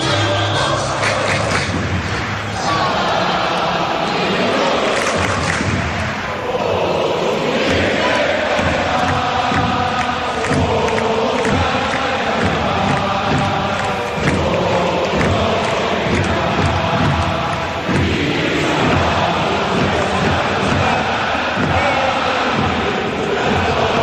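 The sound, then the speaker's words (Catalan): FC Barcelona's anthem sung a cappella by more than 95,000 fans filling the stadium stands, a massive, steady wall of crowd voices carrying the melody loudly and continuously throughout. “Però vull dir que quan el públic el canta a capella, funciona.”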